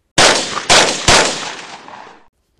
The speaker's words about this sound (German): Chris Redfield nimmt eine Waffe und schießt weiterhin auf Mia.